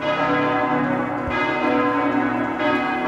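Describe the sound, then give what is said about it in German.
Church bells ring for a wedding: a loud, sustained peal of overlapping metallic tones with a long resonance, and fresh strikes that renew the ringing a few times. “Bei den Hochzeitsglocken, ne?”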